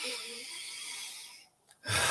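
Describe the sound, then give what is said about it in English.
A slow, deep breath is taken during a guided relaxation, a long airy rush lasting over a second. It fades into a brief pause, then another strong breath begins, fairly faint overall. “just take a nice big deep breath”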